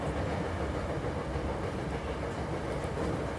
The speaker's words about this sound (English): I'm riding the rails here in Osaka